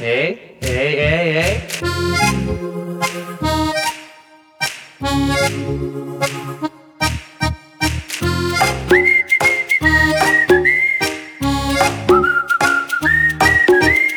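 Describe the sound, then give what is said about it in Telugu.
A person whistles a bright, high melody in short phrases. The notes hold longer and steadier in the later part. “హే, ఇంకొకసారి whistle అయ్యవా please please please.”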